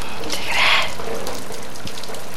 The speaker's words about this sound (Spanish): Lluvia y lodo apagan todo. Los humanos murmuran y el agua grita.